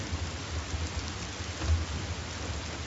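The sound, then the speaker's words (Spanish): Heavy rain falls at a cemetery during a burial, a dense, steady hiss of drops that stays loud and even throughout. “Llueve con intensidad.”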